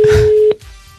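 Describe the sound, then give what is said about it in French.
A telephone tone sounds as a company is called, a loud steady low tone for about half a second that ends in a sharp click, followed by a quiet open line. “Nous appelons donc une société”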